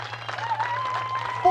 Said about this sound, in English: And listen to this crowd.